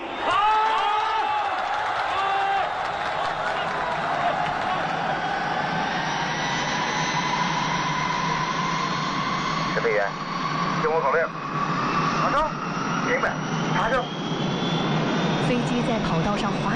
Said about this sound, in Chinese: 加速，离地，起飞了，上天了， 飞起来了，飞起来了